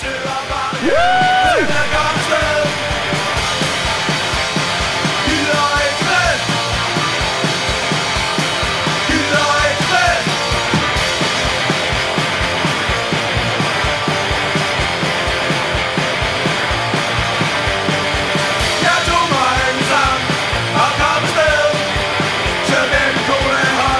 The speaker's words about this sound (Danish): Giv os dit punk-skrig